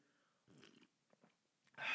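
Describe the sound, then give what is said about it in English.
A person takes a few faint slurping sips of coffee, then a louder breathy burst follows at the end. “Swig of coffee for the working man out there that's listening to me.”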